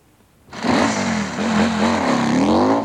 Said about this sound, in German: Und das? Das ist ein Motorrad. Ein Motorrad.